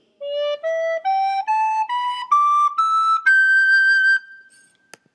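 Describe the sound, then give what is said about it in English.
Eight clean, pure notes of an extended pentatonic scale climb step by step from low D, each short and separate except the last, which is held longer. “I'm using the full extended pentatonic scale. The challenge notes high D, E, and G. They would sound like this, starting from low D.”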